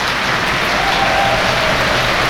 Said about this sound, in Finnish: Näin yleisö tervehtii tätä upeaa sinfoniaa ja upeaa esitystä.